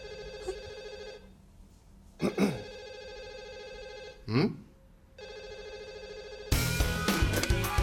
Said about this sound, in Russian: Пропустили звонок.